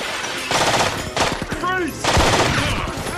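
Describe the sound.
Automatic gunfire from a machine pistol during an indoor shootout near a staircase and kitchen, coming in several loud, rapid bursts separated by short pauses, with the longest burst at the end.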